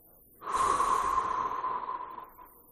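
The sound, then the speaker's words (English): A single long, audible breath taken during a guided breathing exercise, a smooth airy rush with a faint whistling tone that rises in, holds for about two seconds and tapers away. “take a breath in through your nose and out through your mouth.”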